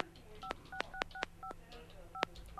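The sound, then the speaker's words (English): Telephone speed-dial tones: a quick series of short, bright dual-pitched beeps, several in a row with uneven spacing and a longer gap before the last, over a low background hum. “Hit that redial button. No, okay. The speed dial. Hang on.”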